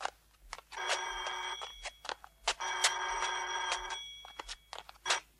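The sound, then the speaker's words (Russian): A telephone bell rings in two long bursts of about a second each, a loud, bright metallic trill, with sharp clicks and knocks scattered before, between and after the rings. “Едва передвигая ногами, к телефону идет старушка.”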